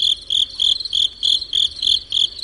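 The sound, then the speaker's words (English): Crickets chirp in Hawaii, a high, shrill trill repeating in many short, evenly spaced bursts. The rhythm is steady and there are no voices. “chirping crickets in Hawaii went silent”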